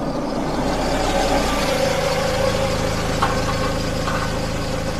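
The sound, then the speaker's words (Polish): A car engine rumbles as the car rolls carefully along a gravel road. The low, steady drone holds at an even loudness throughout, with no distinct changes. “usłyszał warkot samochodu toczącego się ostrożnie po żwirówce.”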